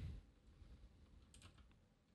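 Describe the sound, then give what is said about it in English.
Faint typing on a computer keyboard, with a few soft, quick key clicks over low background noise. “I'm going to type it and you can announce it.”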